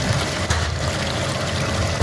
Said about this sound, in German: Ich wasche jetzt alle Kürbisse, die vom Feld kommen. Die werden hier, ich sag mal, durch diese rotierende Bürstenmaschine, die mit Wasser beaufschlagt wird, gewaschen.